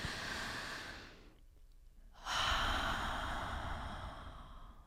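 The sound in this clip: A deep breath: an airy inhale, a short pause, then a slow, full, loud exhale that rushes out over a few seconds and gently fades.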